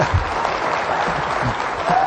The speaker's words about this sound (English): That wasn't an applause line.